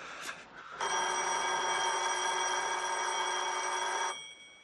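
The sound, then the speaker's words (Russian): A telephone bell rings in an apartment, one loud, steady electric ring lasting about three seconds, preceded by a brief rustle and otherwise alone. “Алло? Звонок в квартире Ларисы.”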